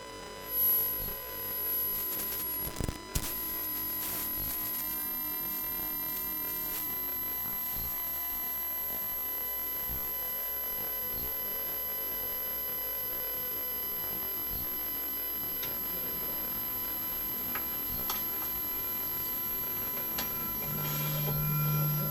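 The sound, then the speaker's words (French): A malfunctioning washing machine gives off a continuous droning hum with rough mechanical noise. A couple of sharp knocks come early on, then the even whirring carries on at a low level. “En avant pour le bruit. Le bruit donc d'une machine à laver qui décompense.”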